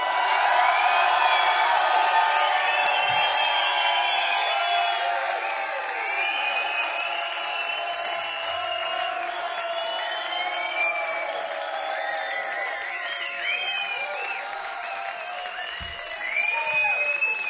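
A concert crowd cheers and applauds for a live band, a loud, sustained wash of clapping with scattered whoops that eases slightly partway through and swells again near the end.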